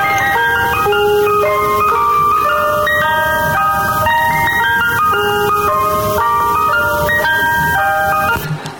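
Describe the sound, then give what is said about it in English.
An ice cream truck jingle plays a bright, tinkling melody of chime-like notes. It repeats in a steady loop at a loud level and cuts off abruptly just before the end. “How many of you remember that? How many of y'all know about Mr. Softy?”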